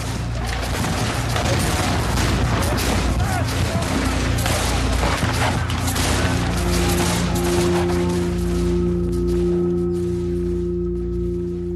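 Volleys of rifle fire from rebels shooting out of fire pits at British troops make a dense, continuous crackle of overlapping shots, loud throughout, with a sustained droning tone entering in the second half.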